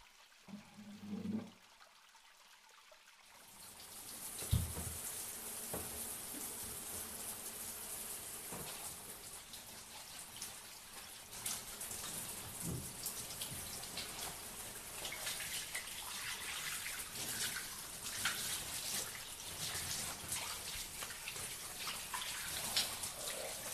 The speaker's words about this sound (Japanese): お体を軽くお流ししてからお風呂へ入りましょう。